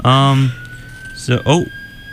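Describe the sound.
A police siren sounds from a vehicle driving by: a steady, fairly faint tone holds under brief bursts of voices.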